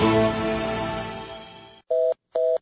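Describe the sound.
Telephone tones for a call that cannot be completed: a fading, ringing harmonic tone dies away, then two short, steady, identical beeps follow, separated by a brief silence.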